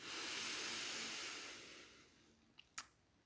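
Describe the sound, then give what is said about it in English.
Big inhale of breath, a long airy hiss that holds steady and then fades out after about two seconds, followed by two small, quick clicks. “And then when we get to the end of that long sentence, then we take a big inhale.”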